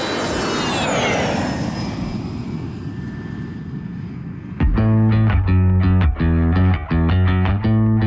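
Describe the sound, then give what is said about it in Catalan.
An airplane in flight on a flight to Formentera gives a broad, steady roar with whining tones that slowly fall in pitch. It stops about halfway through, when rhythmic music with a strong beat begins. “Estàs escoltant el primer vol a Formentera.”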